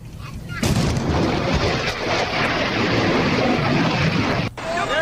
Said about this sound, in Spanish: Ese fue un avión, un F-16 rompiendo la barrera del silencio.